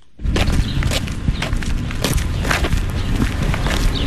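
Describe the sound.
Footsteps of a person walking to a park on the outskirts of Yerevan, Armenia: many steady, crunching steps over a dense, continuous wash of background noise.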